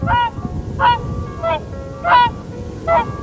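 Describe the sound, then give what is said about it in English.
Calls of a Bewick's swan in the countryside: five clear, evenly spaced honking calls, bright and harmonic, each short and loud over a low background hiss. “The call of the Buick Swan, once a familiar sound across our countryside, may be in danger of falling silent.”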